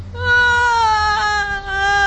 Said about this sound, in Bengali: দাদু ভাই থামো দেখি, থামো থামো থামো, আরে কাঁদে না।